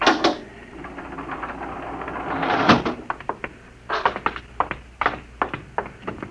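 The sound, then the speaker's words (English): Spaceship airlock door opening: a broad mechanical rush swells into a sharp hiss at its peak, then gives way to a rapid run of many crisp clicks and clanks. “Landing jacks are down, sir. Open the airlock.”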